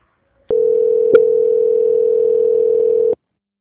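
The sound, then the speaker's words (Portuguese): A telephone line gives off a steady, single-pitched tone for about two and a half seconds while a call is being transferred. Faint clicks mark its start, a point midway and its abrupt end, with silence around it. “Aguarde um minutinho que eu vou transferir.”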